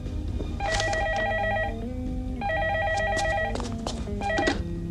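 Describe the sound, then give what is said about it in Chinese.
A telephone rings on stage in a comic sketch: three repeated bursts of trilling, bell-like ringing over a steady low hum. “说曹操，曹操来电话啦。”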